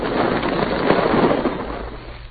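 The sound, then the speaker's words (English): An explosion blasts through a rock pile, a dense rumbling roar of sustained crackling noise that stays heavy before tapering off at the end, muffled in tone. “I'm going to blast through here, and that'll be...”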